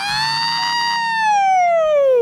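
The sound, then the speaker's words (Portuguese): An ambulance siren behind the last runner in a road race: a loud, bright harmonic wail that holds a steady pitch, then slides steadily downward toward the end. “A ambulância estava atrás de mim, eu era o último colocado daquela corrida.”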